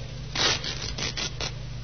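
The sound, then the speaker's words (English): The lining of a raincoat being ripped open during a police inspection in a cellar. A few harsh, rasping tearing bursts come in quick succession, with short gaps between them. “Yeah, try ripping the lining,”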